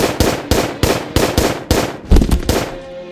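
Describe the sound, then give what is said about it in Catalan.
Pistol gunfire as a full magazine is emptied: a rapid, evenly spaced string of loud, sharp shots, each with a brief decaying tail. The volley ends in a slightly denser, messier cluster. “Agafa la pistola d'un company i buida el carregador sobre en Benito.”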